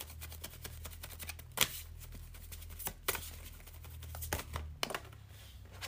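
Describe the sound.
Cards being shuffled before one is drawn for a card reading: a quiet, steady run of soft riffling and clicking, broken by a few sharper snaps, with no talking.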